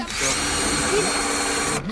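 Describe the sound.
A power drill whirs continuously while unscrewing a fitting before a new hole is made, a steady mechanical whine with a brief dip near the end, voices speaking over it.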